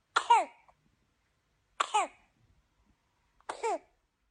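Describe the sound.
A baby coughs in three separate short bouts, each a harsh burst with a brief voiced tail, separated by about a second of silence.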